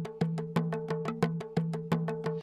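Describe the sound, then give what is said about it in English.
Two people play drums in a dry recording with no acoustics. Many fast, sharp hits fall in a steady repeating rhythm, with a low, tuned drum tone under the strokes and stronger accents recurring at regular intervals. “Here's the sound of someone making some drum sounds, okay? So this is just some normal, dry, no acoustics.”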